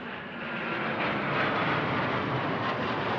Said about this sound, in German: Die Bundeswehr trainiert am Nürnberger Albrecht-Dürer-Flughafen mit 3 Eurofighter-Kampfflugzeugen. Franziska Simon war dabei, als die Maschinen gelandet sind.